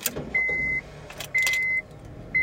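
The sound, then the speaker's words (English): A key slides into a minivan ignition with a short jangle of metal keys, followed by an electronic warning chime that repeats as evenly spaced steady tones, about one per second. “Brenda Sanders sat in the driver's seat of the minivan and slid the key into the ignition.”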